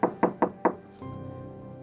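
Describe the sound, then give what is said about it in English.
Knocking on a door: four sharp, evenly spaced raps in a quick rhythm, followed by a faint, steady low hum. “But someone knocked the door.”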